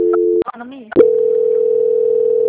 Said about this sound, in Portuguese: Só um minutinho que eu vou passar para ela. Tá bom. Transferência.